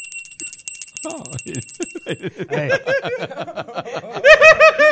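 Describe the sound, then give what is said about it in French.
A doorbell sound effect gives rapid, high, metallic rings that repeat for about two seconds. Bursts of laughter join in and carry on to the end. “Alors je te raconte, elle sonne à la porte...”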